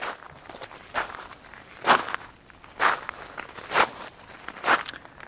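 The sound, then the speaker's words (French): Footsteps crunching on gravel: five distinct gritty crunches at a slow, even walking pace, each a broad scraping burst with softer scuffs between them and no voices. “Des pas sur le gravier.”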